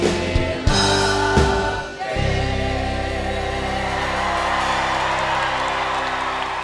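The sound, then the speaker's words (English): A standing ovation from thousands of people at the Grand Ole Opry: a loud, sustained roar of cheers and whoops from the crowd, with low sustained tones beneath. “Getting a standing ovation from thousands of people at the Grand Ole Opry clearly feels really, really good.”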